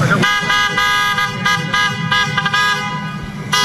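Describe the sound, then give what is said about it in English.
A brand-new Jeep's horn toots in a quick run of short, bright, harmonic honks as it drives down a driveway to a big backyard party. The bursts come loud and steady for several seconds. “He drives down the driveway. Listen.”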